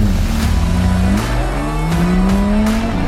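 Engine of a 1963 356B car driving, a loud, continuous drone with strong harmonic tones whose pitch climbs steadily as it pulls, with no voices over it.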